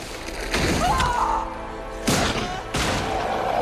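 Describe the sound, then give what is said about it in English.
Heavy smashing and thudding as an orange-eyed alien creature knocks a tentacled machine aside and punches it down: three loud crashing impacts, with a thin metallic whine trailing after the first and the last. “It knocks the device aside, rips off one of its tentacles, and punches it down.”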